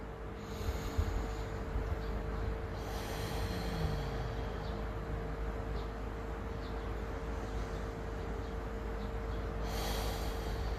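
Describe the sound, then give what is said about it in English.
A few slow, deep, airy breaths taken at the start of a recovery group meeting, heard over a steady background hum with a faint constant tone. “Let's begin with a couple of deep breaths.”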